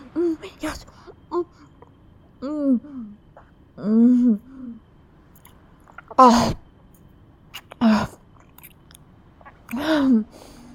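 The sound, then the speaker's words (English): Gum being chewed noisily, with wet smacking and several short, voiced moaning sounds in separate bursts, each followed by a brief pause. “Give me your gum, give me your gum, let me taste it. I need it. You don't know how fucking addicted I am to your gum, please.”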